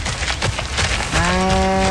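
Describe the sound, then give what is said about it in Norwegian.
A cow mooing beside a lakeside walking path where a cow and young calves rest: one long, steady, low moo with a rich tonal quality fills the second half, after a stretch of noisy rustling. “Det kuer på Sognsvann! Jeg visste ikke det.”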